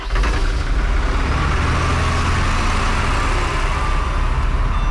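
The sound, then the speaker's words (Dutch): Steady engine rumble of a van driving to the day's location in Krooswijk. Dense, continuous road and motor noise runs unbroken at an even, loud level with no voices. “Nog even de laatste handelingen voordat de wagen gaat rijden naar de plek van vandaag.”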